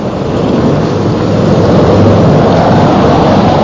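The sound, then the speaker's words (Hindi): Storm at sea as a ship is caught in a violent tempest: a loud, unbroken roar of rain and churning water that holds steady throughout, with no clear separate thunderclaps. “Black Michael अपना वादा भूला नहीं, लेकिन इससे पहले कि वो अंग्रेजों को खबर पहुंचाता, उसका जहाज फाल्डा एक जबरदस्त तूफान में घिर गया”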